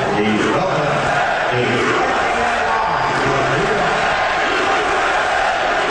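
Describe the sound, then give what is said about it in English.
A crowd at a Knicks basketball game cheers as President Trump is shown on the Jumbotron, producing a loud, unbroken roar of many voices that stays at a constant level throughout. “Some people cheered, others cheered when President Trump was shown on the Jumbotron.”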